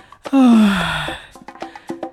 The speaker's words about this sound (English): or when anxiety or stress is in the highest level, yawn, right? Yawn, okay?